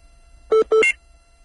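Two short telephone keypad tones in quick succession as a number is dialled to call a guest, each a clear, loud beep over a quiet background.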